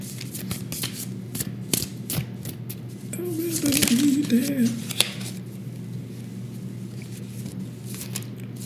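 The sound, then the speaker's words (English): Tarot cards are handled and flipped in soft, scattered papery taps and slides, with one sharper snap near the middle and a brief low murmur of voice. “Flip another card, I guess, before we go into automation mode.”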